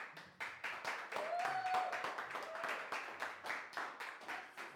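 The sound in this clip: An audience applauds at a church service with steady, rhythmic clapping that stays fairly soft throughout. A faint voice rises briefly over the clapping.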